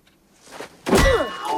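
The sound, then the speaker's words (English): A shovel whacks someone on the head with a single heavy, dull thunk that cuts in sharply after a quiet lead-in and rings briefly as it fades. “He whacks Pendansky round the head.”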